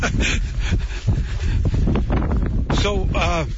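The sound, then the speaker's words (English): Wind buffets and rumbles against the microphone outdoors among white spruce, Scots pine and balsam fir on a tree farm, a low steady roar running under people talking throughout. “we'll get back out of the wind here.”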